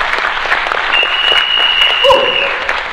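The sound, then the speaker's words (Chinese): An audience at a motivational lecture gives a round of applause to an audience member, a loud, full spread of many hands clapping steadily for the whole stretch, with a faint high whistle running through the middle. “给他一个掌声好不好？”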